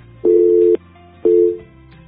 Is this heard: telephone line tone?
yes